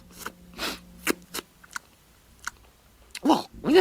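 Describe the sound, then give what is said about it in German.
Wet lip-smacking and slurping mouth sounds while sipping schnapps: a series of short, sharp smacks and clicks spaced irregularly, with a louder cluster of smacks near the end. “Schlabber- und Schmatzgeräusche haben dich auch amüsiert.”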